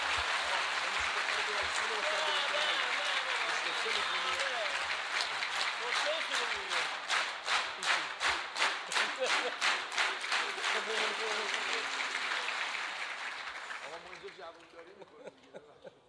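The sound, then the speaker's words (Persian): An audience applauds with a dense wash of clapping that settles into rhythmic, unison beats for several seconds before tapering off and fading out. “حالا اگر دلتون خواست یه کف مرتبم بزنید که این شرفه.”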